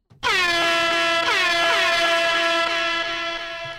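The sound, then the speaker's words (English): A loud air horn sounds one long, sustained blast with a bright, buzzing tone that holds steady and fades slightly at the end. “You know, by popular demand, we got the blow horns in.”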